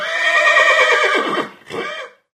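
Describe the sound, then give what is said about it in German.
A large white horse whinnies at a farm where a farrier is shoeing, giving one loud, quavering neigh that breaks off briefly into a shorter trailing burst before it falls silent. “Und links von uns steht gerade ein weißes Pferd, das ist sehr groß und sehr einschüchternd.”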